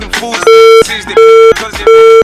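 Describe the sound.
A phone call disconnects with three loud, steady beeps of equal length and pitch, evenly spaced, while a voice is heard in the gaps between them.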